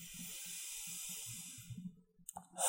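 A slow inhaling breath during a guided relaxation: a soft, steady airy hiss lasting about two seconds that gradually fades, followed by a few faint low sounds.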